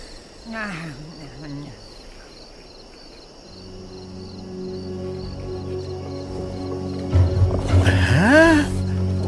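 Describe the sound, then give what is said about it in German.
Two tigers growl and roar in low, rough, wavering calls over a steady chirring insect-like background. A louder roar sweeps up and down in pitch near the end. “Da sind zwei Tiger aus Diegos Rudel.”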